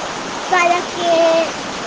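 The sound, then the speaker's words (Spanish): Steady rain falls while rainwater is being collected in Cosamalomila, making a broad, even hiss throughout, with a brief voice rising over it midway. “Hoy estamos en Cosamalomila, nos tocó lluvia”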